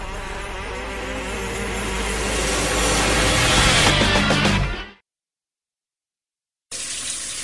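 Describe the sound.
Tap water runs at a sink during dishwashing, a steady loud rushing stream for about five seconds that stops abruptly, then starts again near the end.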